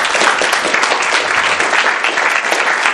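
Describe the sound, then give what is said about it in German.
Audience applause after a translation: many hands clapping in a loud, dense, continuous wash with small fluctuations in level. “Da wollen wir noch einen Applaus, der Netta.”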